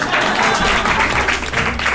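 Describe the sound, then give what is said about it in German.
Audience applause at a live stage show: a dense, steady wash of clapping that carries on for about two seconds without a break. “Boah, yes! Applaus!”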